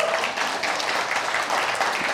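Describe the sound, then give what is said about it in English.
Audience clapping for a child being introduced, a continuous patter of many hands at moderate loudness that stays even from start to finish. “You notice how they clapped a little more for you than for Jackson?”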